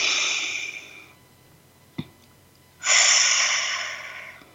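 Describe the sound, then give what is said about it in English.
Deep group breathing: a long breathy inhale fades out, a single small click follows, then a second strong, airy breath swells in and slowly trails off. No voices. “Let's breathe that in together.”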